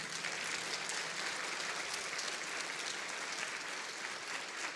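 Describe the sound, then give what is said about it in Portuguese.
An audience applauds during a service in a Methodist cathedral. The many hands make a dense, sustained patter of clapping at an even loudness from start to end, with no talk over it. “Você pode aplaudir Jesus?”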